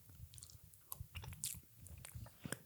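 Faint chewing and soft crunching from a bite of cheesecake, as quiet, irregular mouth sounds with a few slightly louder bites and no talk.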